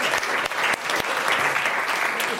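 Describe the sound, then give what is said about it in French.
An audience applauds a guest for a good answer on a French talk programme, with dense, steady clapping that holds at an even, fairly loud level throughout. “Et puis on applaudit notre invité”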